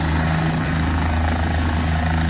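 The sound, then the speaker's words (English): Helicopter contracted by the province departing a pharmacy in flood-hit Dauphin with prescriptions aboard: a loud, steady rotor thrum with low pulsing and a constant level throughout the short clip. “Video posted by Dauphin Clinic Pharmacy of a helicopter departing with some of its out-of-town prescriptions”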